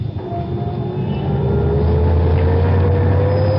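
A Rolls-Royce car driving off, a steady low engine drone that swells slightly while a whining tone rises gradually in pitch.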